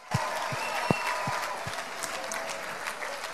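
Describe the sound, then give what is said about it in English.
An audience applauds a pipe and drum band with steady, dense clapping, a few heavier claps standing out near the start, and no voices over it. “Ladies and gentlemen, give it once more up for the Scots Guards Association Pipes and Drums.”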